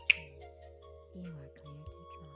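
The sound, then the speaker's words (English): A single crisp finger snap at the very start, followed by a soft voice speaking quietly. “why the snap of fingers sends you deeper, deeper into relaxation?”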